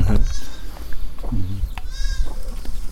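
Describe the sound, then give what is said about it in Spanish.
Sheep bleating as a flock arrives: a few wavering, tonal bleats rise above a steady, noisy background, with no talk over them. “Ahí vinieron las ovejas.”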